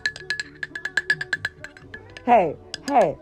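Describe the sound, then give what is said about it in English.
A spoon stirs tea in a teacup, making many quick, bright clinks against the cup in a steady rhythm, after which a person starts talking. “Baby, hold on. Let me stir my tea.”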